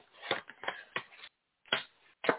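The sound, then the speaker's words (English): A deck of cards being shuffled and drawn for a card reading: a few quick papery slaps and riffling bursts, with a brief pause before the last two. The sound is muffled and fairly faint, with no voices. “I'm going to pull five cards for each one of you, and we're going to talk about each one.”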